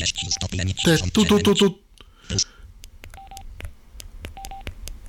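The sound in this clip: Key tones from a phone handset set to maximum volume: a few short, clear beeps at a steady pitch, spaced apart, with a voice talking over the first half and quieter pauses between the later tones.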